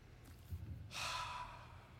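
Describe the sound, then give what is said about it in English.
A single long, breathy sniff taken at an old, 20-year-old Bible bound in Highland goatskin: a soft hiss of inhaled air that swells, holds for about half a second, then fades, fairly quiet and alone. “We interrupt this sermon for this special sniff. If this don't strengthen you, nothing will. Have a whiff of this Highland goatskin.”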